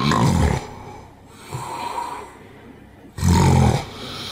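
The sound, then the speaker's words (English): Loud rasping snore-like breaths and a gasp during sleep, a sign of sleep apnea. Two heavy bursts of breathing bracket a stretch of quieter, fainter breathing. “And then there are periods where there's no sound. And then they might notice a gasp. The gasp often sounds like this.”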